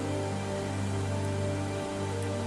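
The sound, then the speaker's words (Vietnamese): Steady rain pours down near a railway bridge over a river, an even, unbroken hiss of falling water at moderate loudness with no voices. “Trời đổ mưa”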